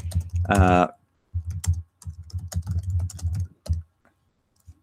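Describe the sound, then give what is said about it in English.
Quick, irregular clicking of typing on a computer keyboard, in short bursts separated by pauses, with a brief voice near the start. “I know you often hear typing on the podcast.”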